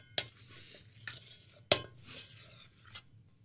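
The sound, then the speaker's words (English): A utensil clinks against a bowl while salt is mixed into dry ingredients that include baking soda, giving a few sharp taps with soft scraping between them and no talk. “So I just have my salt shaker and I put it over top of that. Give it a little mix.”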